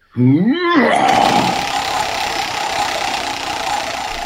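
A prize wheel is spun hard, giving a loud continuous whirring rattle that holds steady for several seconds. A brief rising vocal cry comes at the very start.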